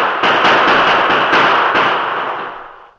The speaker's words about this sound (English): Yes, we'll return their fire.